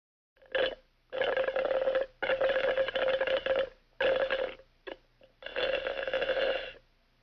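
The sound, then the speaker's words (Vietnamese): Juice slurped through a straw: several loud, buzzy sucking pulls of uneven length, split by short pauses, including a couple of quick brief bursts. “Câu vừa rồi có thể hiểu là em gái tôi đang hút nước ép chụt chụt qua ống hút, giống như là đoạn âm thanh sau đây.”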